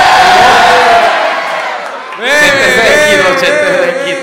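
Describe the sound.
A studio audience cheers and whoops as a guest is welcomed, with loud overlapping shouts and high, sliding cries swelling in the second half over earlier talk.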